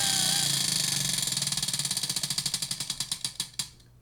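A spinning question wheel clatters with rapid pointer clicks that gradually slow into widely spaced ticks before it comes to rest.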